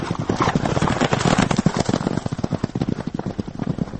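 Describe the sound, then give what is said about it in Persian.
A forest ranger's swift-footed horse clip-clopping along, its hooves striking in a loud, steady and rapid run of many beats with no other sound. “اما خود او میگوید به هیچ وجه ترک شغل جنگلبانی کردنی نیست و تا پایان عمرش روی اسب تیز پایش دختر جنگل باقی خواهد ماند.”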